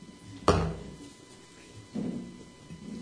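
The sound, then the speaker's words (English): Sharp snap of a small package being opened, followed about a second and a half later by a softer rustle, faint and without voices. “So I have a little package here, which I'm going to just open up.”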